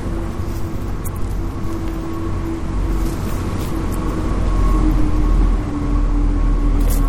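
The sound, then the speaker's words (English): A train car rumbles past near a canal as a steady, broad low roar with a faint tonal hum running through it, swelling somewhat louder toward the latter part before easing slightly. No one speaks. “Oh, there is a motor. You can hear the motor going. See it? So they look like they pulled a lot of work. Actually, maybe that was just the train car that went by,”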